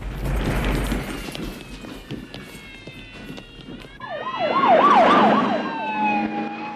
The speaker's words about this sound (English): Patrol cars cut through the darkness.